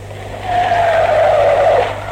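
Tires screeching as a taxi pulls up: one loud, sustained squeal lasting over a second and dipping slightly in pitch, with a low engine hum underneath.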